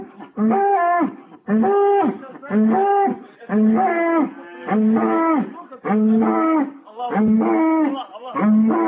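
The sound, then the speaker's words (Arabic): A cow mooing in a long series of repeated, loud, drawn-out calls with short pauses between them, each moo strongly voiced and fairly even in pitch. “عايزكم تركزوا قوي قوي في البقرة دي، هم تفاجئوا بيها. اسمعوا بتقول ايه.”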